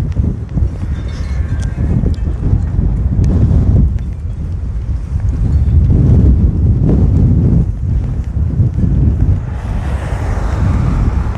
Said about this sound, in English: Find out if the wind sock on this microphone works today, because that wind is just whistling.